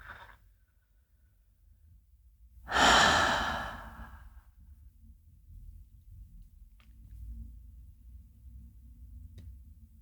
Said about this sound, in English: Let's take a couple nice, slow breaths.